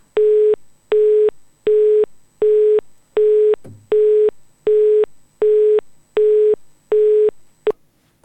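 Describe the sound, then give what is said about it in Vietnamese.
Telephone busy signal after a call was cut off mid-conversation: a long, even series of short, identical beeps at a steady mid pitch and regular rhythm, with no talk over it. “cuộc điện thoại đang nói thì là thì bị cắt ngang”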